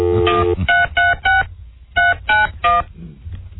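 A telephone is being dialed for a call: a quick run of touch-tone keypad beeps in two clusters with a short pause between, crisp and fairly loud.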